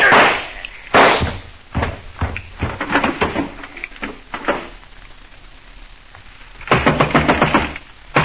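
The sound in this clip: Gunshots fired in a radio drama: a series of sharp, loud cracks spaced irregularly, ending in a dense, rapid volley of shots.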